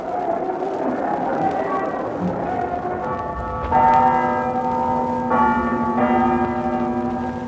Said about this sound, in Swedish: om några sekunder kommer domkyrkans klocka att slå 3 och det är det betydelsefulla timslaget när Uppsala studenterna sätter på sig sina vita mössor.